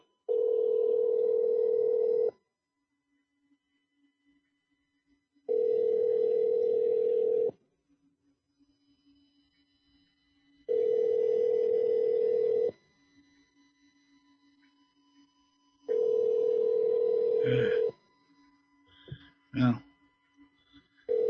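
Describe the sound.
Ringback tone on an outgoing telephone call: four long, even buzzing tones of about two seconds each, separated by silent gaps, followed by a few brief clicks and noises.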